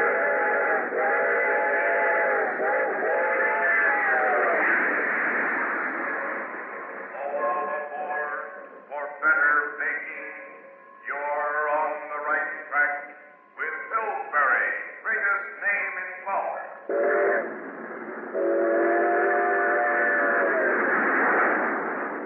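A train runs on rails toward Grand Central Station, with loud, sustained chord-like whistle tones at first, then choppy, pulsing bursts, and a steady whistle again near the end.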